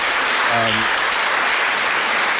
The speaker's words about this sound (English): I think that deserves an applause. Well done.